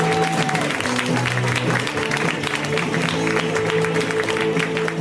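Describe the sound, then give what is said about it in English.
Comedy club audience applauding a comic as he is introduced, a steady patter of many hands clapping at moderate loudness throughout. “Let's hear a round for Mr. Joe Quazala, guys. Give it up for Joe!”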